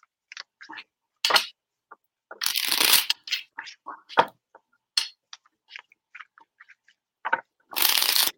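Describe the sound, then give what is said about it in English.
Tarot-style oracle cards shuffled and spilling out of the deck: many quick, crisp papery riffles and slaps in irregular bursts, with short pauses between them. “Cards are falling out over here. Don't you love it when they just fall out?”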